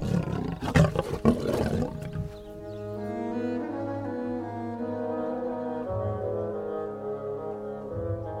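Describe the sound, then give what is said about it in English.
Lions roar with a great noise: a rough, noisy burst of deep growling gives way to a long, low, steady rumbling roar that holds at a constant pitch. “There was no mistaking what it was. Even though they had never heard the sound before, they knew it was the roaring of lions.”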